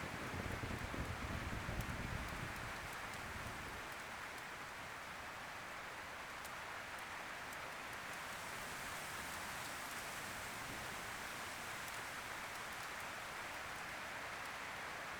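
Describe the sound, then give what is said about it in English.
Rain taps on the roof and windows of a log cabin in a forest, making a soft, steady hiss of many fine drops that stays even throughout. “the sound of the rain tapping against the roof and windows is soothing”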